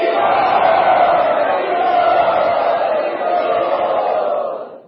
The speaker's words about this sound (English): So let us very heartily welcome him to India, Radha Gopina Temple, by loudly chanting three times.